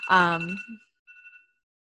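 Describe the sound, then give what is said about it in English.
A phone alarm gives a steady, high electronic tone. It first runs beneath a short vocal sound, then comes back briefly on its own, fainter, after a moment's pause. “sorry, that was my alarm on my phone.”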